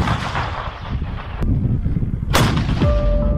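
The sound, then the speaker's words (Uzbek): Artillery fire during military training exercises involving aviation, artillery, mortar and paratrooper units: two sharp, loud reports stand out over a continuous heavy rumble, and a steady tone appears near the end. “Mudofaa vazirligi bayonotlariga ko'ra, bu mashg'ulotlarga aviatsiya, artilleriya, minomyotchi va harbiy parashutchi bo'linmalar jalb qilinmoqda.”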